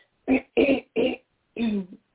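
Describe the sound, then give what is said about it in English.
Throat clearing by a person pausing mid-talk: four short, harsh voiced rasps separated by brief silences, fairly quiet and alone. “I'm sorry about that, clearing my throat”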